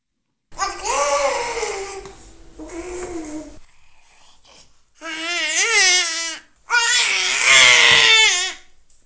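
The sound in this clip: A young child imitates a velociraptor with shrill, screeching cries. There are four long, wavering vocal screeches separated by short pauses, and the last two are louder and more rasping.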